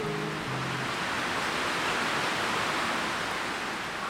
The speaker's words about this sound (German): Über uns biegen sich die Baumwipfel im Wind. Es ist stürmisch, aber nur da oben. Ein Schwanken um uns herum und ein Rauschen.